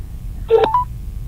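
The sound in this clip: Telephone keypad tones as a number is dialed, a short cluster of a few quick electronic beeps over a low background hum.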